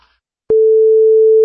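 A steady telephone line tone while placing a call begins abruptly after a brief silence and holds at one constant, loud pitch to the end.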